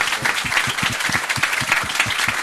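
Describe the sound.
Loud, sustained applause in a council session for a legal team, many hands clapping in a dense, even roar with no break across the whole stretch.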